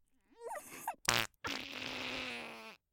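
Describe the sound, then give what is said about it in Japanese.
A drawn-out, steady buzzing fart lasting over a second, preceded by a short, sharp burst and a brief higher squeaky sound. “密室でムシムシしてるのにおばさんのおならでもっと蒸し暑くしちゃって。”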